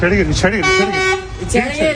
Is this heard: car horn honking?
yes